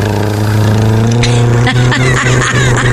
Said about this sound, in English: down the street he comes, not on a Power Wheel, but on a motorcycle.